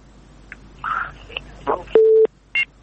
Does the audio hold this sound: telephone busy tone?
yes